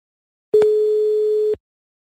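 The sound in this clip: A single steady telephone tone while placing a call: one clean, mid-pitched beep lasting about a second that starts and stops abruptly, heard alone with no voices.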